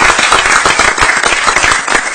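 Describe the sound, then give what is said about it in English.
Audience applause at a city council meeting, honouring a young man: loud, dense clapping with many overlapping hand claps that continue steadily throughout. “Congratulations. Give that young man another big hand.”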